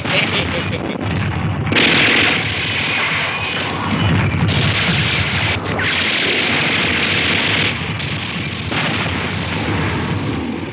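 A ship's ammunition magazine hit by gunfire and exploding at sea, a continuous loud, roaring blast with heavy rumble and repeated crashing surges throughout.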